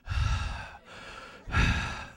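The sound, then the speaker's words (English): A voice imitates heavy breathing down a phone line, with loud, airy, rasping breaths that rise and fall, softening briefly in the middle before surging again. “you'd call each other on the phone just to listen to each other go,”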